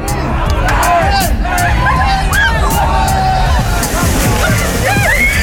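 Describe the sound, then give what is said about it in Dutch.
Water sloshes and splashes continuously as people slide down a dike and wade through a muddy ditch at a participatory mud event, under loud crowd hubbub and voices throughout. “Maar nu kon iedereen weer los en dat betekende van de dijk glijden, door de sloot ploeteren en modder op plekken waar je dat liever misschien wel niet hebt.”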